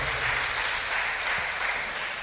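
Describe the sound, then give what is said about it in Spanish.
A seated church audience claps in steady, dense applause that holds at an even, loud level from start to finish. “Y sentaditos aplaudimos y glorificamos al Señor.”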